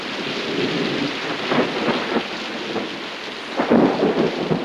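Steady rain pours down behind a porch, a dense continuous hiss with rumbles of thunder and a few louder surges rising out of the wash.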